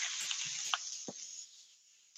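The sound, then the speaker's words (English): Green onions and asparagus sizzle in a hot pan over medium-low heat, a faint, steady hiss with a few light pops and crackles that fades partway through. “So here I have the vegetables, hot pan, medium, low heat. I'm going to add the green onions and the asparagus to this.”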